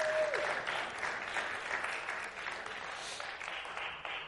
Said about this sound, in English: So will you join me in welcoming our online family and those that are new this morning? Give them a hand.